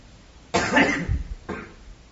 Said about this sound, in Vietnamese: Cứ ho hoài, anh ho nó vô máy của tôi á, tiếng ho lớn lắm đó.